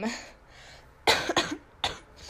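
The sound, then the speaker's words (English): Coughing from someone with a cold and a lingering bronchial condition: a breathy stretch, then a few short, harsh, loud coughs in quick succession. “So if you hear me, like, coughing or whatever, I still have a little bit of a bronchial thing going on.”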